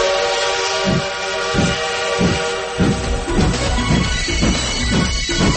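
A moving train with its horn sounding: a steady, sustained horn tone rides over a rhythmic, repeating low rumble and clatter of the rolling cars, fairly loud throughout.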